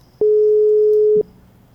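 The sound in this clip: Telephone call tone on an unanswered call: a single steady, mid-pitched beep lasting about one second, heard alone on a quiet line.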